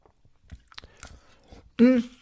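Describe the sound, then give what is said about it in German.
Chewing while eating baked oven cheese for breakfast: soft, irregular wet clicks and mouth noises at a low level, with a short louder voiced sound near the end. “Entschuldigung, dass ich esse, alles aber, gut. Ofenkäse zum Frühstück.”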